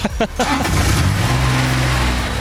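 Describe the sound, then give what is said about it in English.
A small go-kart-like ride with a top speed of about 6 km/h runs with a steady, low engine drone after a brief bit of talk at the start. “No, I'm going to turn it off. Okay, turn it off. Yeah, turn it off. This is Tom's sweet ride. Honestly, it's like a go-kart, but it goes about 6 km/h.”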